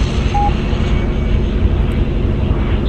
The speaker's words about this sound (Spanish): Puedes despegar utilizando la pista.